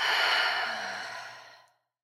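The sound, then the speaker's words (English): A long breath is let out through the mouth during a guided breathing exercise. The soft, airy whoosh starts fairly strong, then tapers away and ends in silence. “Inhale through your nose. Exhale out your mouth.”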